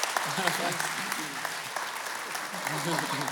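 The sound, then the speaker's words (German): An audience applauds at ICF Zurich, a dense, even wash of clapping that lasts the whole stretch while a man's voice speaks over it. “Applaus. Lass uns gross aufstehen. Applaus, Jay John.”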